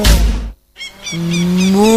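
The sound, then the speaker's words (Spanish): A cow moos in one long, low, steady call that rises slightly toward the end. A short burst of noise and a brief silence come before it. “la primera y única vaca influencer del Uruguay”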